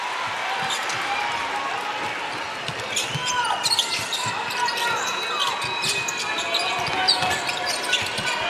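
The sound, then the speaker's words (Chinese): A basketball is dribbled during a game against Spain, with repeated bounces mixed with high, sliding squeaks on the court floor. “现在伯克斯的运球有点多”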